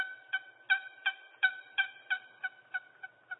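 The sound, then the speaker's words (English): A turkey call used to lure turkeys sounds a rapid, evenly spaced series of about ten nasal, hen-like yelps that rise in loudness and then gradually fade. “And then you take something like this and you lure those turkeys in close.”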